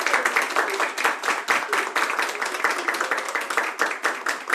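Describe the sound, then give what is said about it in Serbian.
An audience claps for a performer at a live show in a kafana setting, producing dense, energetic applause with a pulsing, slightly rhythmic beat that stays loud from start to finish. “Osjetio sam po aplauzu da je nešto neštima ovdje.”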